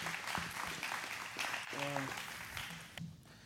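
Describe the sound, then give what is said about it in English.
An audience at a church service claps to welcome a speaker, a steady wash of applause lasting about three seconds with a brief voice over it before it thins out. “You can give Ken a hand. Welcome him”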